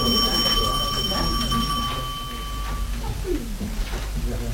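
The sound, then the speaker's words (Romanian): A bell rings to signal the start, a steady, bright ringing tone that holds for roughly three seconds before cutting off, over a background of voices and crowd noise. “Ne mai vedem, auzi, sună de începere.”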